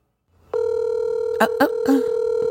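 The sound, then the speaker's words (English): A steady electronic ringback tone sounds on an outgoing phone call to the caller's mother. It starts abruptly after a moment of near silence and holds evenly to the end, with a few brief bursts of noise over it. “Let's dial her up. I hope she answers.”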